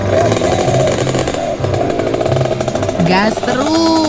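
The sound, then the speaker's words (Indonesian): A rare old vehicle's engine revs loudly, the kind unlikely to pass an emissions test, making a continuous rough, rattling drone whose pitch shifts as the throttle varies. “Gas terus. Lo. Ini lo kendaraan langka yang harus dilindungi keberadaannya.”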